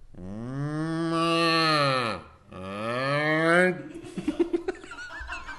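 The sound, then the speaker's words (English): A person imitating a cow's moo: two long, voiced moos with a drawn-out falling contour, the second performed in reverse while inhaling, followed by a few short breathy chuckles. “if I do a cow, yeah, I can make a moo, and then I reverse and then moo inwards”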